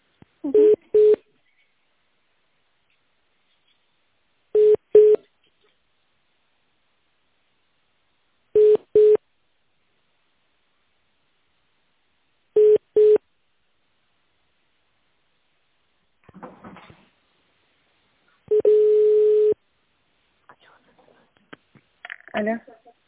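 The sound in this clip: Ringing tone on a telephone line while a call is transferred to a specialist: four short, evenly spaced tone bursts, then a longer tone, with a few brief noises near the end.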